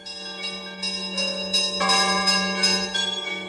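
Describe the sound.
Church bells ring cheerfully late at night, a bright, dense peal of overlapping strokes that sustains loudly throughout without any voices.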